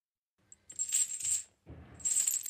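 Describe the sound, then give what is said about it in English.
Chains rattling and clicking: a faint single tick, then two bright bursts of metallic jingling separated by a brief gap, the second ending in lower clinks. “The chains rattle again, and it clicks.”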